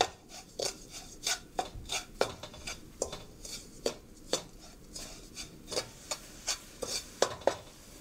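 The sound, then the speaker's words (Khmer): Spoon stirring sugar in a pot so it dissolves: many faint scraping and clinking strokes in an irregular rhythm, heard alone without talk. “កូរវាយើងកូរស្កររបស់យើងឲ្យវារលាយបន្តិច”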